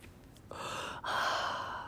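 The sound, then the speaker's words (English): A soft, breathy exhale of blunt smoke swells into a steady airy hiss, breaks off for a moment, then carries on just as steadily. “That's the sound of weed coming out of my mouth.”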